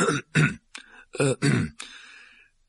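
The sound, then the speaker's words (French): A man clears his throat nervously in a series of short, rough, gravelly bursts, separated by brief pauses. The last one trails off into a softer, breathy rasp. “Monsieur Dursley, un peu nerveux, s'éclaircit la gorge.”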